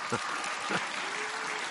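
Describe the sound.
Audience applause during a presentation talk: steady, dense clapping that fills the whole short stretch at an even, moderate level, with a couple of brief low thumps near the start.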